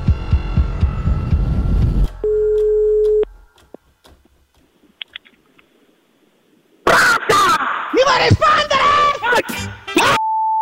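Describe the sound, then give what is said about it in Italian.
A telephone ringing tone sounds as a call is placed: music first, then one steady mid-pitched ring of about a second, followed by near-silence with faint clicks, then loud voices talking. “Ma adesso chiamo Ennio.”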